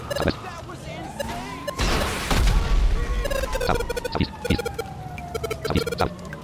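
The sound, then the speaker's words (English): Rocket launcher explosion in a video game: a broad roaring blast with a deep rumbling low end lasts about a second, surrounded by people talking and scattered sharp in-game impacts. “Let's blow up a person. Rocket launcher, that's a bit overkill.”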